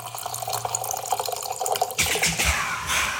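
Wine pouring from the tap of a bag-in-box: a thin, uneven trickle of liquid that turns into a fuller, louder splashing gush partway through.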